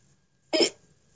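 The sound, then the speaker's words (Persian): A single short, sharp voiced hiccup, loud and abrupt against silence. “برای همینه که سکسکه میکنم.”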